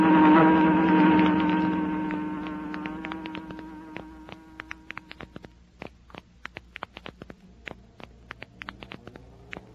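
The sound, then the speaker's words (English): An inexpensive electric fan whirring with a steady humming tone that fades away over several seconds, followed by many scattered light clicks and ticks. “Some fan, isn't it, honey? Feel that cool air.”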